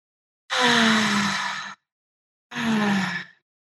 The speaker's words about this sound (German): Nimm weiter ganz tiefe Atemzüge ein und aus.